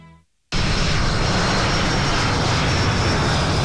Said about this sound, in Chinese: 在空军航空大学某机场，伴随着战机的轰鸣声，又一批飞行学员驾驶着教八教练机腾空起飞，进行战术编队单飞。